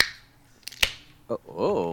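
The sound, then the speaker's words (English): A can of Boddington's Pub Ale cracked open, heard as a couple of sharp, snapping clicks, followed shortly by a person speaking. “Oh, crack it open, baby. Yeah, that's true. What is that? Oh, this old thing? Oh, don't mind this. It's just the official beer of the Random Draw podcast, Boddington's Pub Ale, established 1778.”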